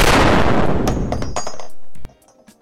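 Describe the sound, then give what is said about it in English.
A fictional gun called Mr. Lathan, the Ziggy's boomiest weapon, fires one loud, roaring, crackling blast. The blast holds for about two seconds, cuts off sharply, and leaves a few faint clinks. “And that's the Ziggy's boomiest gun, Mr. Lathan. Thanks for asking. It sounds like this.”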